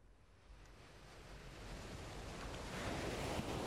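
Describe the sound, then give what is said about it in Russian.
An ocean wave rolls in as a broad, hissing surf roar that swells steadily louder toward the end, heard alone. “Накатывает темно-синяя волна. Над водной гладью надпись «Мимраншур».”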